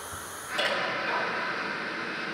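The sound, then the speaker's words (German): Hissing of an automatic welding machine sealing the long seams of plastic sheeting under even heat and constant pressure; the steady, breathy noise kicks in abruptly after a quiet start and then runs on unchanged. “Die langen Nähte der Kunststoffbahn übernimmt ein Schweißautomat. Der sorgt für eine gleichmäßige Temperatur und konstanten Druck.”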